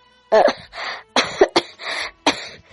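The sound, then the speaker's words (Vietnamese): Violent coughing from a woman kneeling on the ground and coughing up blood, performed by a voice: a rapid series of harsh, raspy, loud coughs in uneven bursts, with no speech between them. “Cuối cùng không chống đỡ nổi, Trình Mộ Diên quỳ trên mặt đất kịch liệt ho khan”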